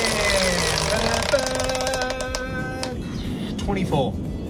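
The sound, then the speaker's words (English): Rapid ticking of a game show prize wheel on a big spin, a fast run of sharp clicks under voices and tonal sound. “We're going to spin the wheel to choose the category.”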